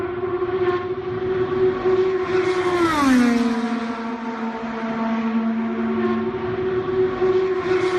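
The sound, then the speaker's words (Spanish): A McLaren Chevrolet IndyCar race car passes at high speed during a test on the Texas oval. Its loud, steady, high engine whine drops sharply in pitch midway through the pass, then holds lower before rising slightly again. “Lo vamos a poder ver por internet, por la página web del circuito de Indianápolis, el sonido del McLaren Chevrolet de Fernando Alonso.”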